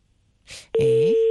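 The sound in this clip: A telephone ringback tone as an outgoing call tries to connect and goes unanswered: a short burst of hiss, then a loud, steady mid-pitched tone that holds unbroken to the end.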